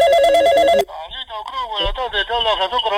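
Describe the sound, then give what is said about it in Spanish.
A telephone ringing with a steady electronic ringtone for a moment, then cutting off as a man starts talking in its place. “A ver, ¿quién me está llamando acá?”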